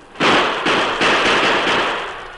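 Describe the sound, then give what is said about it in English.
Gunfire during an attack on ranch hands in a western audio drama: a rapid volley of loud, overlapping shots blending into a sustained, slowly fading crackling roar. “That vicious attack lasted for over an hour. Three of the crossbar hands were seriously wounded, and Mrs. Darby was caring for them when she suddenly realized the shooting had stopped.”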